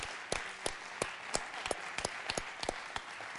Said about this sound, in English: let's give them a warm hand of applause for all that they've done.